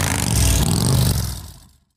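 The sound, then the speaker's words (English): A Harley-Davidson motorcycle engine revs in a loud, throaty roar, holding strong for about a second before tapering off and fading to silence near the end, with no voices. “Everyone knows the best part of any promise is keeping it. Harley Davidson Motorcycles. Ride. Visit Appleton Harley Davidson to test ride today.”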